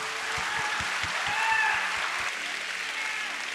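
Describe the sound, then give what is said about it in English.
A church audience applauds families standing on stage. The clapping is dense and steady, holds a level, even wash throughout and swells slightly in the middle. “Well, guys, can we give it up for these families one more time?”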